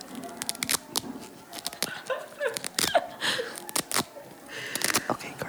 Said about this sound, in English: First up is the sound of Velcro being quietly torn across.